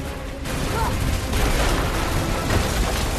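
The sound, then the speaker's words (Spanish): An exploding base with collapsing ceilings fills the whole clip with a dense, continuous rumbling roar. The broad crashing noise swells in a few stronger surges and never drops away. “corre hacia las celdas de la base que explota. El aire se llena de humo y los techos se derrumban.”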